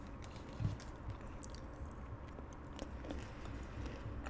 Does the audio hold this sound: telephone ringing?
no

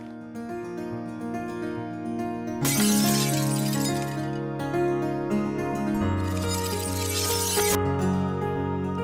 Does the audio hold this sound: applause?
no

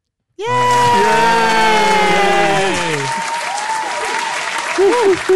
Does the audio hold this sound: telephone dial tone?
no

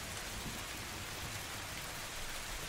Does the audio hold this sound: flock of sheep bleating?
no

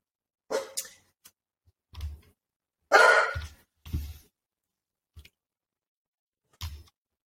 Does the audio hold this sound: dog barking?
yes

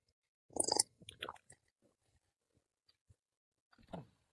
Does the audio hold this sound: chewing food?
yes

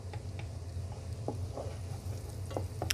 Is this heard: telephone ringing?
no

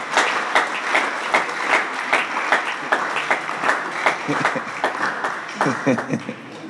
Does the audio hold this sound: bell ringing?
no

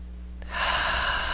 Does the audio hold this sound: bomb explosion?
no

